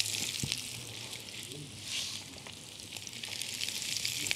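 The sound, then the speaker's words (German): Vegetables frying in oil in a pan, a steady bright sizzle and hiss that holds evenly throughout, with small pops and crackles scattered through it. “Jetzt machen wir hier wieder uns Platz, geben dann noch mal ein bisschen Öl dazu und dann kommt unser Gemüse dazu.”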